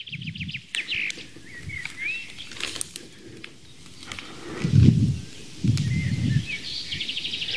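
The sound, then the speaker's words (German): Greenfinch song: a few thin twittering chirps and short trilled notes, fairly faint against steady wind noise and rustling, with no voices. “Dann hast du es mit dem Grünling zu tun, dem Grünfinken. Und nicht mit dem Buchfinken.”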